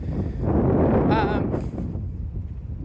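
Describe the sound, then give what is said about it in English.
Wind buffeting a microphone outdoors: a steady, rough low rumble that swells slightly near the first second and continues without a break to the end. “except for the fact that, sorry, wind.”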